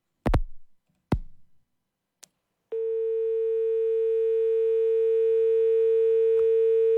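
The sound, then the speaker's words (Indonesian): Telephone line tone on a failed call-in connection: a few sharp clicks, then a steady, unbroken mid-pitched tone that holds loud to the end. “ini agak problem ya kayaknya di teleponnya dari RRI Tuban”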